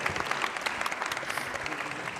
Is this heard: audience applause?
yes